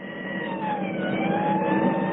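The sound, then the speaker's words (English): A police car speeds in pursuit of a suspect, its engine a continuous, steady roar with faint wavering tones riding over it throughout. “We are following suspect south on 61st at high rate of speed.”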